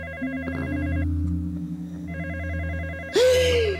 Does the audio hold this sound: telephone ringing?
yes

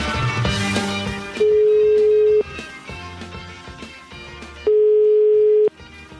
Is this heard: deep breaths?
no

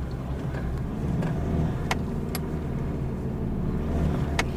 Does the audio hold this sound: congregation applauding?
no

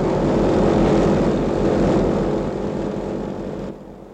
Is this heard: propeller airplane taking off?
yes

